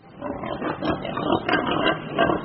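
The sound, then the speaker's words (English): Pigs like those raised in China for cornea transplants make rough, noisy grunting and snorting that runs continuously, with several louder swells throughout. “These are the pigs helping China's blind to see.”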